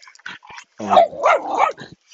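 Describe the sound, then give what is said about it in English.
A dog barks with a weakened, limited growl after surgery: a few soft, short yips, then a louder, hoarse, drawn-out bark that swells in several pulses before fading. “this dog, I think, had some kind of treatment. He used to have a bigger growl, you know, but I think he's had some kind of surgery. They limited his barking somehow.”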